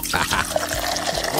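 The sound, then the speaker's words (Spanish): A bottle of mineral water being opened, giving a continuous bright fizzing hiss with small crackles and pops throughout, steady in loudness. “Ahora sí, destápate la primera agua mineral.”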